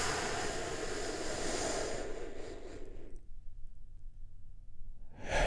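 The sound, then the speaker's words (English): A deep breath is drawn in and released during a guided relaxation: a long, loud, airy rush of breath lasts about three seconds, then comes a near-silent pause before another breath begins. “take another big, deep, healing breath with me right now. Here we go.”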